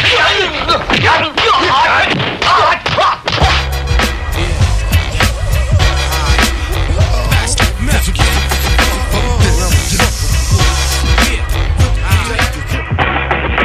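A loud radio-show jingle for a weekly debate segment opens with a quick flurry of sharp whooshes and hits, then settles into a dense, driving mix with a heavy low end that runs steadily to the close.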